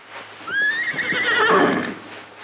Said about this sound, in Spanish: El flete del juido está sufriendo mucho.